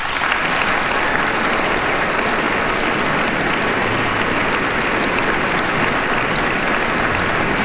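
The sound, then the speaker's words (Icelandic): An audience applauds the Iceland Symphony Orchestra at an evening concert, a dense, even wash of many hands clapping that stays steady and loud for nearly eight seconds without a pause. “Það Daníel Bjarnason sem stjórnar henni hér í kvöld og ég legg til að við gefum henni gott klapp.”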